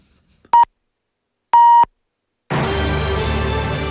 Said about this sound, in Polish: Jeżeli Państwo chcą ustawić zegarki, to zaraz będzie dokładne pikanie na ósmą.